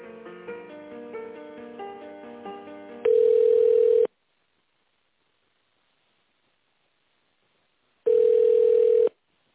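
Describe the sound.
Telephone line tones while a business call is transferred: two long, loud, steady beeps, each about a second long and about four seconds apart with silence between, following a short stretch of hold music.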